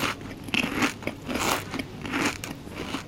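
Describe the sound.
Crunchy bites into a small rectangular honey-almond pastry, a Florentine-style bake with a shortcrust base from a Lucerne confectioner. A few brittle, crackling crunches and chews sound out clearly, with no voices.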